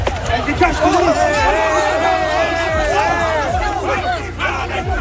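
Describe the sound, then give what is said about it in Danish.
Crowd of high-school students protesting in a street in France, a dense, loud and continuous mass of shouting and overlapping voices with no pause. “Det her, det er altså lyden af nogle store studieprotester, der er i Frankrig”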